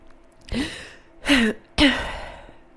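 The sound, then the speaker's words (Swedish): Deep breaths are drawn and let out through the mouth, a few loud, breathy rushes of air, some with a faint voiced, sigh-like tone. “Ta två djupa andetag nu. Genom munnen.”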